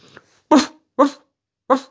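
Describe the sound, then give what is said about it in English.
Dog barking: three loud, short barks, evenly spaced, each with a sharp attack and a quick fade, after a faint brief sound at the start. “Barked the dog.”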